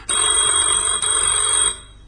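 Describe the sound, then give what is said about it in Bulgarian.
A telephone rings with one steady, loud electronic trill lasting about a second and a half, with a tiny break midway, heard alone before it stops. “Извинете телефонът.”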